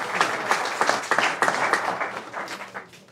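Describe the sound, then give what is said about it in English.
An audience applauds at the end of an evening event, with many fairly loud claps in an uneven patter that swells and dips in bursts before thinning out toward the end. “Put your hands together for yourself.”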